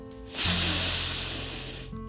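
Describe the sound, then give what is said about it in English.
A deep breath drawn in and let out during a calming exercise meant to release tension: one long, soft, airy rush of breath lasting well over a second, holding steady and then easing off, with a faint low hum underneath. “I think we should do that one more time. Deep breath again.”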